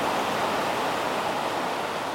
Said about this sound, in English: There are coyotes, wind in the cottonwood trees,